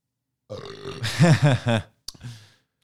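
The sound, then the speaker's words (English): A long, loud belch, a deep voiced rumble pulsing several times for over a second, followed by a brief click and a short, breathy trailing sound. “that belch was brought to you by Sweet Action.”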